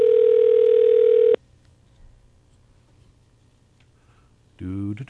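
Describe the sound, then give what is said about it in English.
A phone's electronic tone: a steady, loud buzzing tone lasts about a second and a half, then cuts off abruptly into near silence. A voice begins near the end. “That's my phone ringing.”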